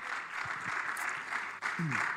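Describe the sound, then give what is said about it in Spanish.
A church audience claps in praise during a service: a steady wash of many hands, with voices underneath and brief low vocal sounds near the start and end. “¿Por qué no da palmas de alabanza al Señor,”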